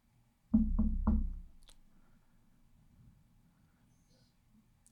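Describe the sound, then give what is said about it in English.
Three firm, evenly spaced knocks on a door, low and thudding, followed by near silence. “Suddenly, there's a knock at your door.”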